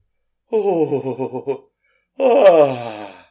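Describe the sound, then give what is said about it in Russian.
A voice imitates a woman's unmelodious yawn in two drawn-out vocal stretches. The first wavers and pulses. After a short pause the second comes louder and slides downward in pitch. “Весьма немелодично зевнула миссис Ривз и лениво потянулась за чаем.”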